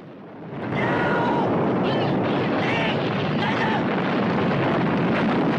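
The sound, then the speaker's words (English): An ammunition hut blowing up in an action film set in a camp: a loud, broad explosive roar surges in after a quieter opening and then stays heavy and sustained to the end. “Francois, Yin and his men flee, then dive for cover as the ammo hut explodes.”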